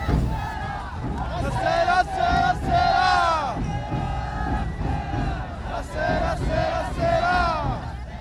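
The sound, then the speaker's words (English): A crowd at an Obon festival chants a welcoming call. Many voices sing loud, repeated phrases in unison, each rising and falling in a regular rhythm. “Then, you start the chant, a welcoming call for all onlookers to join in the festivities.”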